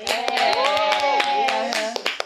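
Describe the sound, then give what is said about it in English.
A live audience in Chicago claps and cheers, with quick, uneven hand claps under a steady wash of excited voices, loud from start to finish. “We are live out here in Chicago. So let's give it up for Chicago, girl.”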